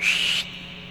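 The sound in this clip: A sharp, high whistle used to call an employee, held loud for under half a second and then cut off, leaving only a faint background hiss.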